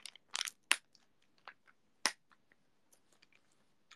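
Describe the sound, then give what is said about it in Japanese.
Soft crinkling plastic and sharp little clicks come from a vitamin jelly drink pouch being opened in close-up ASMR style. A few louder crackles stand out among many tiny faint ticks, with quiet gaps between them. “よし、ウイダー開け ASMR。 ウイダーじゃねえわ、ビタミンだ。”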